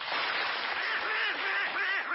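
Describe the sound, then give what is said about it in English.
A person voicing a quacking cartoon duck character chatters loudly and continuously throughout in a raspy, nasal, buzzy tone that imitates a duck. “And Donald Duck.”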